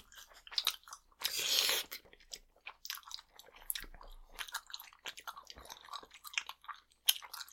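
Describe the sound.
Chewing and biting into a tough banana: one long crunchy burst early on, then many short, moist clicks and smacks of chewing that come and go unevenly, fairly quiet, with no talk.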